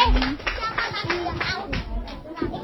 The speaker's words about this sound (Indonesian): Beri tepuk tangan yang meriah.